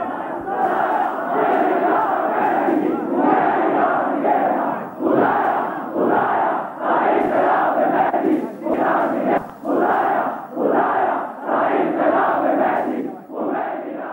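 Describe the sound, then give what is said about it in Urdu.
A large crowd chants a slogan in praise of Khomeini, roaring many short rhythmic phrases in unison. Brief gaps separate the loud, strongly voiced bursts, which repeat steadily throughout. “وارث امام زمان کی نائب برحق Khomeini کفر شکان کے لیے, جس نے مجھ اور آپ کو یہ جرأت دے دیا کہ ہم اپنے حق کے لیے میدان میں نکل سکتے ہیں, اس کے لیے نعرہ لگائیے.”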